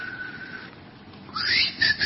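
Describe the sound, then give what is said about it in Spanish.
A voice imitates the whistling heard in deep night silence. A thin, steady high tone comes first, then a brighter whistle that sweeps upward and ends in a short, high final note, all against quiet. “Sentís un chiflido.”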